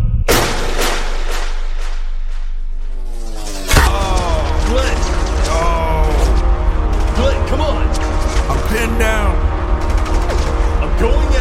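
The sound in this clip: Gunfire crackles through a chaotic escape scene, with dense, loud bursts of shots that intensify abruptly about a third of the way in. Shouting voices are mixed in with the shots.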